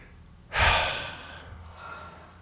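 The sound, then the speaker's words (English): A single deep breath, a breathy rush that starts abruptly, swells loud and tapers away over about a second. A fainter, softer breathy trace follows before the end. “just take a breath.”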